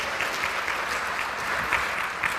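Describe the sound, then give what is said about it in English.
A conference audience applauds the speaker with loud, sustained clapping that stays even from start to end, with no talk over it. “Thank you very much. And a warm applause.”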